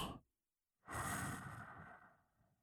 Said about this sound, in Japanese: そしたら、今度は吸って、また吐いて、